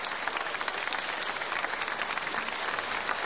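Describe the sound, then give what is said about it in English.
An audience applauds to call two performers back for another bow after a classical performance. The dense, even clapping of many hands forms an unbroken, rain-like wash that holds at a steady level. “The audience has called George Sell and Pierre Fournier back once again for another bow.”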